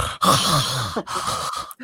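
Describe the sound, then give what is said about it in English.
A person imitates the snorting, wheezy breathing of a French bulldog, a pug-faced dog: a few rough, noisy breaths in quick succession, separated by brief pauses, fairly loud and with no other sound. “these little pug faced cuties who just like they just follow me around, they never bark, they're so docile. They just breathe like”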